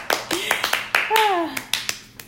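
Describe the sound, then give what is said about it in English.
Hands clap in many quick, sharp, uneven bursts while a young voice speaks over and between them. “You gotta clap, you know, all over.”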